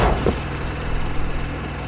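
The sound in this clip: A generator runs with a steady, even low drone and faint tonal hum throughout, holding the same level with no clear change in pitch.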